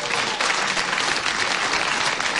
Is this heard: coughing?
no